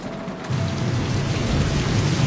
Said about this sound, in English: Their rental car pulls to a stop at a curb, the windshield wipers battling the rain.